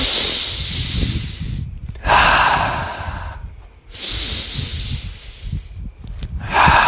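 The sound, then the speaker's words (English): Slow, deep breaths taken as a calming pause before picking up a phone: several long, loud, airy inhales and exhales, each a broad rushing hiss separated by short quiet gaps, with no talking. “I'll just take a couple of deep breaths. Just like,”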